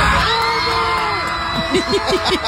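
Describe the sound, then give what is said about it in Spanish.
Argentine passengers erupt in cheers mid-flight on an airplane after being congratulated on their World Cup final, a loud burst of whoops, yells and overlapping shouting voices. “Y cuando dijo enhorabuena a los argentinos que iban en pleno vuelo, Andreina, estallaron en júbilo”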